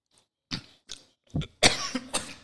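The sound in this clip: Coughing after choking on one's own spit: a series of short, rough coughs in separate bursts, the later ones louder and more throaty, with no talk between them.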